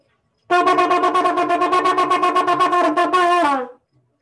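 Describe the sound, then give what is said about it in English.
Shofar sounding the teruah blast: a loud, rapid run of many short staccato pulses of a bright, brassy horn tone at a steady pitch, heard alone, with the last note bending slightly downward as it fades. “That is the Teruah.”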